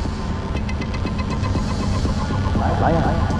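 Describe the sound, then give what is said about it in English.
Traffic of vehicles passing on a road beside a bus stop outside a school, a steady rumbling engine hum with throbbing undertones that swells slightly toward the end. “Slowly, she rises, contemplating the vehicles whizzing past in each direction.”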